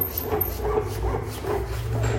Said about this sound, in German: Ich hoffe, das ist jetzt nicht laut. Ich muss mal eben das Rollo runter machen.